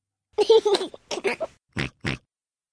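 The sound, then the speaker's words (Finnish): A voice imitates a pig grunting with a run of short, throaty oinks and snorts. It starts as a quick cluster and ends with two separate, deeper, rougher grunts. “Kyllä, Pipsa röhkäisee.”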